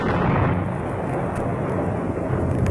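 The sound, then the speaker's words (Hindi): Rolling thunder from storm clouds as the weather turns bad, a loud, continuous deep rumble that holds steady through the whole stretch without clear separate cracks, heard alone with no voices. “मेरा ख्याल है मौसम खराब होने वाला है, बादल गरज रहे हैं।”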